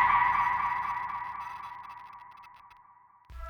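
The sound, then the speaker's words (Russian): Little cars rushing downhill and accelerating, heard as a sustained whining, rushing tone that starts loud and fades steadily over about three seconds, followed by a brief low burst of noise at the very end. “Машинки ринулись вниз, ускоряясь до предела разрыва, перенося нас во дворец.”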